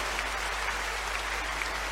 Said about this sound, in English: Is somebody clapping some more for the Lord?